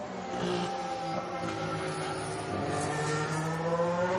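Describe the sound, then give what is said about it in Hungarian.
A Formula 1 Ferrari driven by Kimi Räikkönen races on track during a timed lap. Its engine gives a sustained, high, tonal whine that holds steady and loud with no talk over it. “Itt jön Räikkönen a másik Ferrarival. Neki még egy kanyar teljesítenie kell.”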